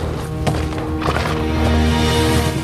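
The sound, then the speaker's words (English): Horses' hooves clop steadily as they pull a captured stagecoach along a dusty trail, a loud, continuous rhythmic beat of hoofbeats with dull thumps. “The sun shines down on Buckland's rangers as they ride the captured stagecoach along a dusty trail.”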